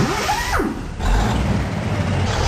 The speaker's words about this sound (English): Voici maintenant un camion canadien. Écoutez bien comment démarre un camion au Canada comme partout dans le monde d'ailleurs.